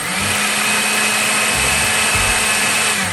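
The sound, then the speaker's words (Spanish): A food processor runs with a loud, steady whir as it blends cooked beet, eggs or chia mixture, yogurt, coconut oil, honey and vanilla essence into a smooth batter, and the motor holds an even drone throughout. “los huevos o la mezcla de chía, el yogurt, el aceite de coco, la miel y la esencia de vainilla y procesamos hasta obtener una mezcla suave y bien integrada.”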